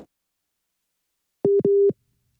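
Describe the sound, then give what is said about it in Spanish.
A telephone busy signal after a dropped call: two steady, mid-pitched electronic tones, a short one then a longer one right after it, loud against silence. “se nos cortó la llamada con Ilse Aguilar”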